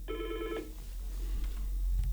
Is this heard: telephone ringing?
yes